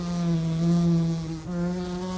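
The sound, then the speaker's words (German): A housefly buzzing in flight: a steady, low droning hum with a rich stack of overtones, continuous throughout, with a brief dip in loudness near the end. “Insekten gelten als die raffiniertesten Flugapparate der Welt. Zum Beispiel die gemeine Stubenfliege.”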